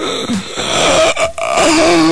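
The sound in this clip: A voice imitates sleep apnea gasping, making strained, moaning, choked sounds as if struggling to breathe. The groaning is loud and continuous, broken by a few brief catches.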